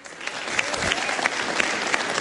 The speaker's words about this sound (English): I think we've got to warm up the crowd for some applause.